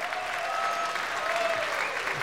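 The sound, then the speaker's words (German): An audience applauds a four-piece folk band of fiddle, two Styrian accordions and guitar on stage, with steady, dense clapping from many hands holding an even level throughout. “ich würde sagen, die Flerragitschen haben sich mal einen großen Applaus verdient”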